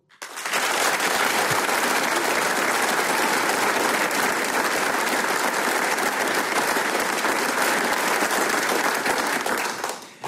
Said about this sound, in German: Und wie der Arbeiterheimsaal hier in Vonsdorf klingt, wenn er dieses Programm bejubelt, das klingt dann genau so.